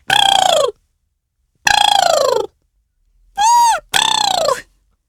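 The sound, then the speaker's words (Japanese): A human voice imitates a crane's call, the kind heard from cranes at a zoo. Four loud, harsh, honking cries are separated by pauses, the first two sliding downward in pitch, the last two following in quick succession. “鶴のモノマネです。知ってます？動物園にいる鶴ってこういうもの、鳴き声するんです。”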